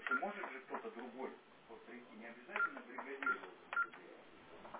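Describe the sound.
Telephone keypad dialing tones sound as a support call is transferred to internal extension 125. A few short, steady beeps come over a thin, narrow phone line, mixed with voices on the call.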